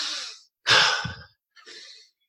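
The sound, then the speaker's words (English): A person takes deep breaths to get centered on the ice before a sled start: three breathy rushes in a row, the middle one longest and loudest, the last shorter and fainter. “You take a couple of deep breaths. Get yourself centered.”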